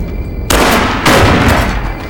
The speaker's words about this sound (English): is thrown backwards by the blast of the shotgun